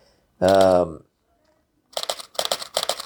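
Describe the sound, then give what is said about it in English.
A camera's shutter clicks while photographing goldfinches on a flowering peach tree, a few crisp clicks in quick succession after a short voiced sound and a pause. “This click click you're hearing is my camera.”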